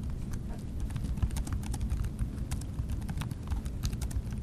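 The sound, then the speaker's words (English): Keys clatter as a prompt is typed into ChatGPT on a computer keyboard: many quick, fairly faint clicks in an uneven rhythm over a low, steady rumble. “But let's see what ChatGPT has to say about it. All right, I'm going to type it in right now.”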